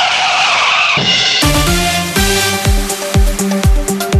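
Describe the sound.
A car skidding on the road makes loud, harsh tire squealing with strong ringing tones and a rapid series of repeated screeching bursts. The sound stays intense throughout, with no voices.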